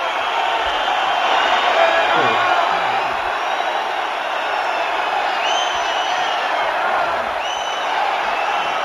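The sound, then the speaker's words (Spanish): Sporting football fans in the stadium protest toward the directors' box as the club is relegated from the First Division, making a steady, loud crowd roar with a few shrill whistles piercing through. “3 primeros minutos ha habido un minuto de pañolada al palco por cada uno de los 3 descensos, bajo el mandato de la familia Fernández, y de esta forma, la verdad es que el sonido ha sido este.”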